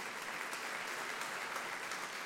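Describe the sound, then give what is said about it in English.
Audience hand clapping in response to a preacher's call, a dense, sustained wash of applause with no single claps standing out, holding an even level throughout. “Come on, somebody give God a hand clap that this is,”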